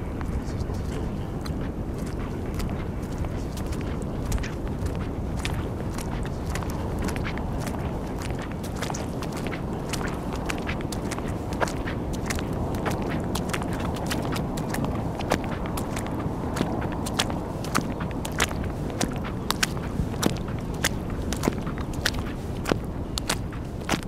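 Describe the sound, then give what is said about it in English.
Footsteps trudge across wet sand left by the receding tide on the Pilgrims' Way crossing to Lindisfarne, Holy Island, heard as many steady, crisp steps over a continuous low rumble. “let's end this mix with the trudge across the wet sands of Pilgrim's Way, left by the receding tides at the holy island of Lindisfarne.”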